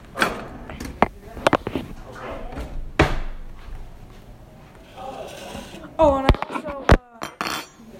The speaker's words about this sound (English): now I have to add two tablespoons of roasted tomatillo salsa verde.